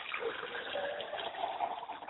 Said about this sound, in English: I pour libation to the South